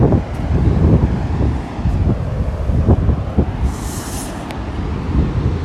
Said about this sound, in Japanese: あ、波の音